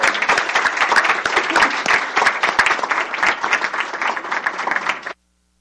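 Audience applause at a panel event: lively, dense clapping with small surges that runs evenly for about five seconds, then cuts off abruptly into silence.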